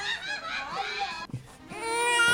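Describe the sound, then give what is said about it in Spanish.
A baby cries in high, tonal wails, with a brief break in the middle before the crying resumes loudly and steadily. “Ay, bebé, no llores.”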